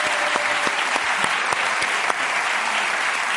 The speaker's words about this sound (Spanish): Un aplauso para Irene.